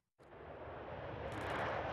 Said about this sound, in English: Off back to America, a US Air Force B-1 bomber departing Fairford yesterday.